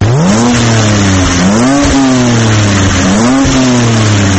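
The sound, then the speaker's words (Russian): Roaring engine of a new-generation BMW X3 SUV, loud and steady, swelling and easing in pitch over a few revving cycles, with no voices. “Ревет мотор внедорожника нового поколения BMW X3.”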